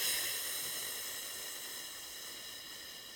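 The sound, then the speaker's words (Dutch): A slow, complete exhale pushed out on a sustained "f" sound during a breathing exercise, emptying the lungs. It is a soft, steady hiss that starts slightly stronger and gradually tapers over about three seconds, with no voice. “om even helemaal leeg te ademen. Doe je bijvoorbeeld op een F, om het even duidelijk te maken.”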